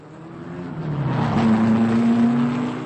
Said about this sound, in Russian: Рев моторов заглушил все. Воздух содрогнулся.